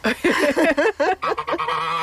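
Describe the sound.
Geese honking on a farm where they roam with goats and hens, a quick run of many loud, nasal, overlapping calls with hardly a pause between them.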